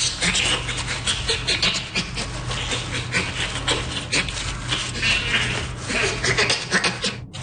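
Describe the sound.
Bonobo panting: a continuous stream of breathy, rasping pulses with many overlapping gasps, dense and unbroken throughout.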